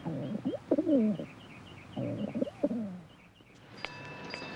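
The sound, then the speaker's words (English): Pigeons perched around a large square opening in a roof coo in two low, rolling phrases, followed by a few faint, higher chirps. “he looks up to see a large square opening in the roof, with pigeons perched all around it. He shakes his head despairingly. A pigeon then lands on it.”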